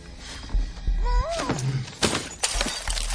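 A glass picture frame is smashed and the broken glass tipped out in a tense thriller film scene. A few sharp crashing impacts come through alongside a sweeping tonal sound.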